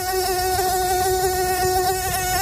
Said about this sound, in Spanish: pues sí, es un mosquito. Esos molestos y desagradables insectos ya están aquí